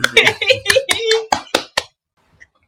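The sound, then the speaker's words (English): Hand clapping comes in as a few sharp, distinct claps right after a burst of talk, then the sound drops to near silence. “All right, can we clap? Yes, we can.”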